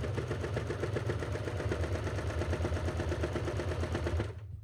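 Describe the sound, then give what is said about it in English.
A sewing machine stitching a two-thread flatlock seam on underwear fabric, a rapid, steady mechanical chatter of even stitch pulses that runs continuously and then stops just before the end. “Okay, and we keep it going. So, I'm just sewing like normal.”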